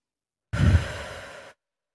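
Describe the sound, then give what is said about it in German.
One deep breath drawn into the belly, a single slow, airy rush of air about a second long. It is strongest at the start and tapers off before stopping abruptly. “Nimm einen tiefen Atemzug, wieder in den Bauch.”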